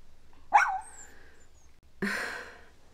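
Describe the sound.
Two sharp, yappy barks from a small light-brown dog sitting up on its hind legs, separated by a pause of about a second and a half, with no talk around them.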